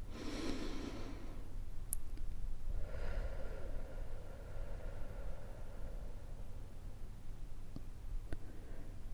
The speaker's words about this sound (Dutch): Adem diep in door je neus. En uit door je mond.